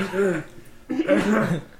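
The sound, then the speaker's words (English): A voice imitates the lingering cough of someone who has had a cold for a long time: two raspy, throaty bursts, a softer one and then a fuller one. “lets out like another cough, but it's kind of that like when someone's had a cold for a long time and they're just like”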